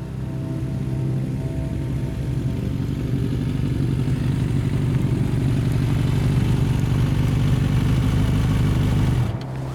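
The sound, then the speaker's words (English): A motorcycle coasts down a slope toward a town with the throttle eased off, giving a steady, loud, low engine drone that holds evenly and then cuts off abruptly just before the end. “I ease off the throttle and let the bike coast down the slope”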